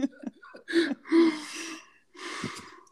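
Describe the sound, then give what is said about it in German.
A person draws a deep breath. A few short, sharp intakes lead into a long, audible inhale, followed by a drawn-out breathy exhale, heard alone and fairly loud. “Hol mal tief Luft, bitte.”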